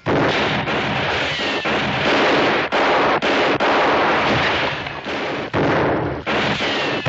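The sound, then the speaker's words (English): Heavy, sustained gunfire roars almost without pause, a dense and loud wash of shots broken only by a few brief gaps, with no voices over it. “Hold your fire. They ain't shooting back.”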